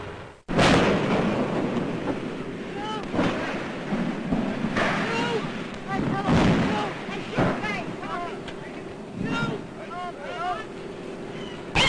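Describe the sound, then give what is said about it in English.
Newsreel footage of the Hindenburg airship exploding and crashing: a continuous roaring rumble with heavy booming bursts, while a voice narrates over it throughout. “you're about to see the pictures he got when the ship exploded. Those aboard leaping for life from a flaming inferno. The actual crash of the Hindenburg, an airship destroyed in less than half a minute.”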